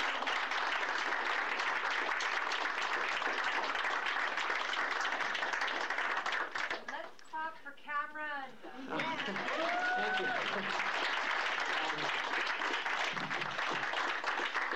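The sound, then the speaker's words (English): Audience applause for a poet at an afternoon poetry reading: sustained, dense clapping that briefly thins midway as voices call out, then swells back to full strength and runs to the end. “Can we clap one more time for Phil?”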